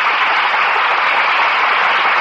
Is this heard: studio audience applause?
yes

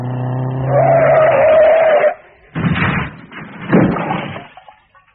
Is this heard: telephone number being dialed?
no

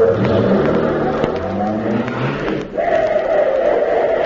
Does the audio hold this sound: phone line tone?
no

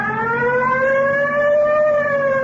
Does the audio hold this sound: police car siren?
yes

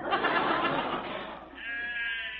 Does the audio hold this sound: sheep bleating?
yes

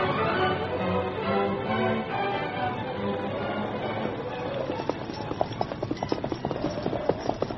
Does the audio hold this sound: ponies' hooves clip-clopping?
yes

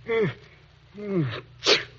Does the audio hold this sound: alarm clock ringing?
no

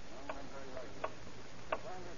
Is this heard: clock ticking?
yes

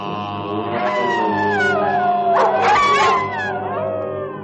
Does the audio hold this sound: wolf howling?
yes

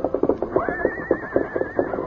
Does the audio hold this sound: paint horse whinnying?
yes

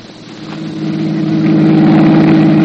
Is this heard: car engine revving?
yes

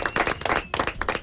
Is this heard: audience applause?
yes

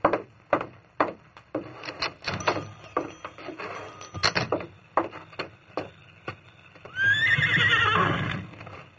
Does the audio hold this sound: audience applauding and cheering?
no

